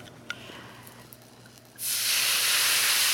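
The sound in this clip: Wine sizzling as it hits a really hot pan: after a quiet start, a sudden loud, bright hiss bursts in and holds steady to the end, with no talk over it.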